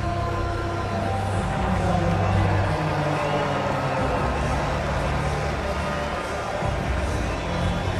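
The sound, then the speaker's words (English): Crowd noise at a Major League Baseball game as fans welcome back a returning Orioles rookie slugger after nearly a month out of the lineup, a loud, dense, sustained roar that holds steady for the whole stretch. “And let's listen to the welcome back for Samuel Basayo.”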